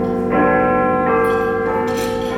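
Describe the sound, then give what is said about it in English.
The great clock bell of Big Ben tolls to mark two o'clock, deep sustained strokes whose humming resonance rings on and overlaps from one strike to the next. “Oh, I never said. We're based in Big Ben. The canteen's right behind the big clock. I have to sit there covering my ears like I'm in Mary Poppins.”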